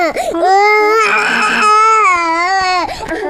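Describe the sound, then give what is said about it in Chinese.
A sick baby cries in a loud, sustained wail whose pitch wavers and bends, with short broken sobs at the start and near the end. “谁抱都哭，这孩子。 那小孩哭不是正常的吗？”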